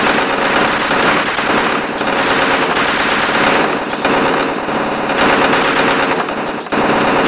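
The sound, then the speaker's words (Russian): Heavy machine-gun fire during an assault on a building, sprayed at its windows: a loud, dense, unbroken rattle of rapid shots that runs the whole clip with no voices. “Сначала шквальный огонь по окнам, 6 человек по магазину.”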